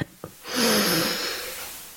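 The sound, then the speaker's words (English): A slow, deep breath drawn in: a soft breathy hiss that swells and then gradually fades over about a second and a half, after two faint clicks. “if we would all just take a breath.”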